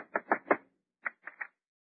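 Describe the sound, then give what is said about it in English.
Knocking on a door: two quick sets of three crisp raps, separated by a brief pause, with silence around them. “Go ahead, knock on the door.”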